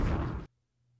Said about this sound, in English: Drop some bombs for my girl.